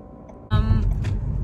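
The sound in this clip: Car driving around at night: a low engine and road rumble begins abruptly after half a second with a brief higher whine, then holds steady to the end.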